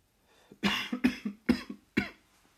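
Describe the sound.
A rapid fit of harsh coughs after a hit from a vape pen, several sharp bursts in quick succession that trail off into quiet.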